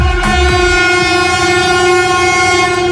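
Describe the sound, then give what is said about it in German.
An ICE high-speed train passes over a newly opened railway bridge, sounding its horn in one long, loud, steady multi-tone blast that lasts the full three seconds above a rumbling rail noise. “Das war ein Regionalexpress, der ICE, der direkt danach kam als zweiter. Der hat sogar ein bisschen ein kleines Hubkonzert gegeben.”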